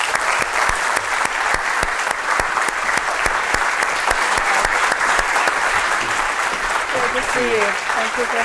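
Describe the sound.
Dense, sustained audience applause welcoming a guest speaker to an evening talk, holding steady and loud throughout, with a voice briefly audible near the end.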